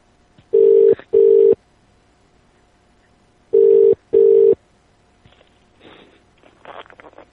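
Ringback tone of an outgoing phone call: two double rings, each a pair of short, steady buzzing tones, separated by a long pause and followed by faint rustling.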